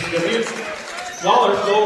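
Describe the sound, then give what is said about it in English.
Basketball dribbled on a court during a game, with rapid bounces mixed under a commentator's steady talk. “A little too much dribbling. A little too much.”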